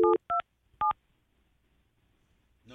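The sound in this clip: Three short telephone keypad tones beep in quick succession as a number is dialled, loud and clean against silence, followed after a pause by a brief voice sound at the end.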